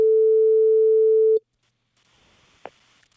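A telephone ringing signal sounds as a call is placed: one long, steady mid-pitched tone lasting over a second, then a quiet line hiss and a brief click.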